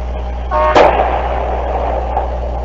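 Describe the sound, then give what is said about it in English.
A single sharp crack of AK-47 rifle gunfire in a combat zone, one brief loud report rising out of a steady low rumble and fading quickly. “Right there, you just heard it. That's an AK-47 going off. Perhaps you can hear it. An AK-47 fires very fast.”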